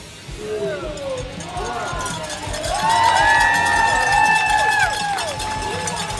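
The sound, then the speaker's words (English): A crowd cheers and shouts as riders set off on a 25-mile charity bicycle ride, with loud voices and calls rising over a steady outdoor hubbub. “That's the sound of the 25-mile riders taking off here at the Dempsey Challenge in Lewiston.”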